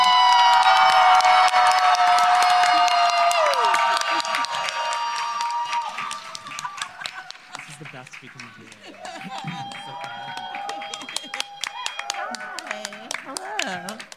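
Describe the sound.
A live comedy show audience applauds and cheers as a comedian is introduced. The loud, dense roar of clapping and shouts gradually thins into scattered clapping, with voices rising over it.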